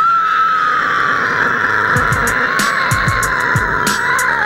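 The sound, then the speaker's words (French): A man imitates a sow squealing, holding one long, piercing, nasal squeal that sags slightly in pitch throughout, over a music beat with crisp hi-hat ticks and thudding low hits. “Ah, il fait bien la truie”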